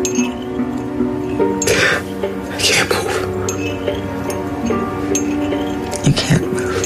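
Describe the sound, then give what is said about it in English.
A teaspoon stirs tea loudly in a cup during a film's hypnosis scene, light clinks ringing against the cup beneath music and talking voices. “playful, taunting music that you surely notice when Catherine Keener's character hypnotizes Daniel Kaluuya's while loudly stirring her tea.”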